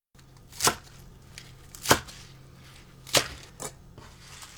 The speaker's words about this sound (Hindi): पहले पालक काटेंगे, पालक की जड़ें काट लें और फिर इन्हें धोकर 5 सेंटीमीटर लंबे टुकड़ों में काट लीजिए।